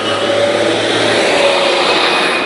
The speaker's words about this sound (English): It was a Green Star purple recycling truck